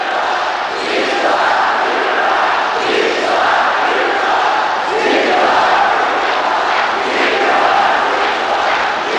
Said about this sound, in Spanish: El público francés grita victoria.